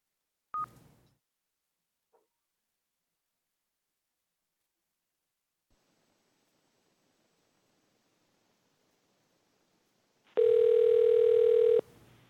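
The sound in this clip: A telephone number is dialed for a call into a public hearing: a sharp click, a long near-silent pause with a couple of faint ticks, then a single steady telephone tone lasting about a second and a half.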